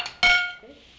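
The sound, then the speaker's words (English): A heavy dish being handled gives one bright, ringing clink that decays over about half a second, preceded by a faint tap. “Oh, it's a heavy dish, this.”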